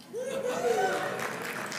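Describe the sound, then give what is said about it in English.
Thin, tepid applause from an audience, light scattered clapping that stays modest throughout, with a brief voice sounding over it near the start. “Thank you for that tepid applause, Orleans.”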